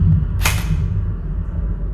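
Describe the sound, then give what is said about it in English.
A Mach M4 assault rifle fires a single sharp, bright shot with a brief decaying tail over a low, steady background. “picked up a Mach M4 assault rifle. I'm going to call that a foe, so I'm going to shoot.”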